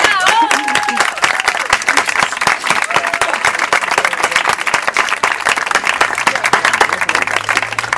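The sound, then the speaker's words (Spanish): Audience applause at an outdoor terrace poetry marathon, a dense, steady clatter of many hands clapping at an even loudness for the whole stretch. “Jesús Rivera, un aplauso.”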